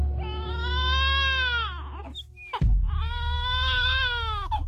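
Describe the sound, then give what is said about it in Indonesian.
A hungry infant cries in two long, wavering wails separated by a short break with a soft knock. A steady low rumble runs underneath the cries. “kenapa tiba-tiba anak kita menangis? Cup, cup, cup sayang. Aduh, sepertinya anak kita lapar ini”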